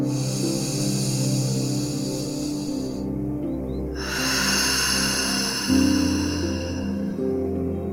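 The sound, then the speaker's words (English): Deep meditation breathing: slow, airy inhales and exhales separated by a short pause, drifting over soft, sustained tonal music that continues underneath. “Let's inhale, and exhale. And again.”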